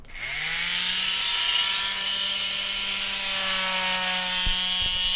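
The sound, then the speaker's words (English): An autopsy saw cuts apart a leather shoe, its motor spinning up into a loud, steady, high-pitched whine with a buzzing edge that holds for several seconds, broken by a couple of sharp clicks near the end. “One of the tools that we like to use to do that is an autopsy saw. So you're about to cut this shoe.”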